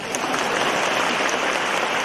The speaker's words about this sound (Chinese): 你们不鼓掌，我讲不动了。